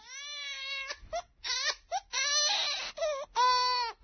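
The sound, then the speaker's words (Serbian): A baby crying hard in repeated high-pitched wailing bursts, some long and strained, others short and broken, loud and insistent, with no one talking over it. “Pa učini nešto, vidi kako strašno plače.”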